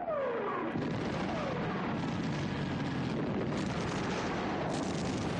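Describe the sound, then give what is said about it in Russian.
War-film aerial bombs strike houses on a farmstead, a falling whistle at the start giving way to a continuous, heavy roar of explosions and rumbling blasts that stays loud throughout. “На его глазах бомбы попадают в 2 хаты. Белую звездку стен застилает черный дым и оранжевый огонь. Одна из бомб попадает точно в центр хаты.”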